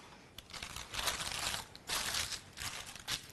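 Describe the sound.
Paper is peeled off food on a round plate, a quiet crinkling and rustling that comes in several short bursts, with no talk.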